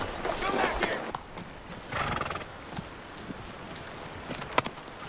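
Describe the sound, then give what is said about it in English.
Horse whinnying and hooves as a horse and pack mules bolt after a grizzly bear bars the trail and the rider is thrown. A loud neigh opens, another cry follows, then scattered hoof clatter fades out. “Ennis's horse rears up and throws him. The horse and mules run off.”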